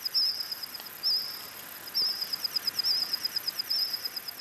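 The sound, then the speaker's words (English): Reconstructed calls of prehistoric insects from the dinosaur era, modeled from fossils: high, thin cricket-like chirps repeat in short pulsed bursts at a fairly steady rhythm over a constant hiss, with no voices. “Using the fossil record and AI, scientists have modeled the calls of insects that lived alongside dinosaurs.”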